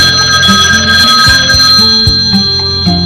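A telephone ringing, a steady high-pitched electronic ring sustained through the whole clip, with lower tones shifting underneath.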